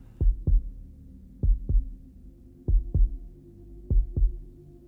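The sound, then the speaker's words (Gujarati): A heartbeat sound effect stands for the old man's heart in Poe's story. Four deep, muffled double thumps repeat in a slow, steady lub-dub rhythm over a faint hum, with no voices. “હું એ અવાજને બરાબર પરખતો હતો એ ડોસાના હૃદયના ધબકારાનો અવાજ હતો”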